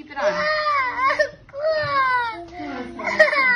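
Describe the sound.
A two-year-old child wails and sobs in a video, loud high-pitched cries sliding downward in pitch, coming in a few drawn-out bursts with brief breaths between them.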